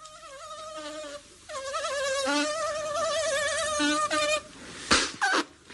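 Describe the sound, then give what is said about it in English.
Flies buzzing on a hot afternoon at the British Embassy in Alexandria, a steady, wavering drone that rises and dips in pitch, followed by a couple of brief sharp noises near the end. “Curse these flies.”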